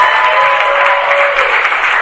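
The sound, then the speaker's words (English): Applause from an audience at the close of a presentation, a loud, dense and unbroken patter of many hands clapping that holds steady throughout with no talk over it. “One more big round of applause for Josh.”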